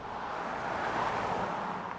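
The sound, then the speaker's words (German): Traffic on a busy road in south Manchester, beside a rugby club, makes a steady, fairly quiet wash of road noise with no distinct passing vehicles. “Der Manchester Rugby Club liegt an einer vielbefahrenen Straße im Süden der englischen Großstadt. Der Verkehr ist das Einzige, das die Ruhe stört in diesen Tagen.”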